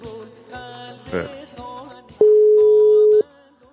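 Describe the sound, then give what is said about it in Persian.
Phone-line tone as a caller calls in: a single steady electronic beep about one second long, loud and flat in pitch, standing out sharply from quieter sounds before it. “بذار ببینم که دوستمونم میخواد تماس بگیره.”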